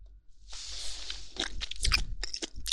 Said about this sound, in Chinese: 果然是肌肉的部分最好吃，听说吃鸡肉还不会长胖哦，全是蛋白质。